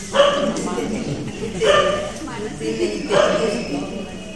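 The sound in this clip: A dog barks in three loud bursts spaced evenly about a second and a half apart, over steady background noise and people talking.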